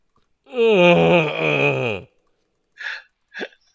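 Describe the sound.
A voice imitates a tired, sore-backed moan: one long, loud groan that drops in pitch as it ends, then two short breathy sounds after a pause.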